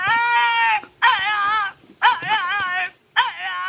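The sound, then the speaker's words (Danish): A French bulldog gives four drawn-out, wavering whine-howls in a quick series, each high, tonal and quavering in pitch, with short gaps between them and no other sounds. “Er det en hund? Ja.”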